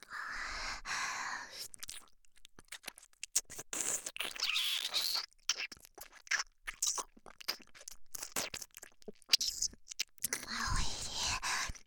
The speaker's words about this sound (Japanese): 飼い猫らしく耳舐めてご奉仕だ。